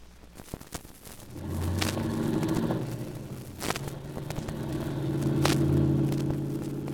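A car being driven, its engine giving a low, steady rumble that swells and eases, with a few faint clicks and rustles, fairly quiet throughout.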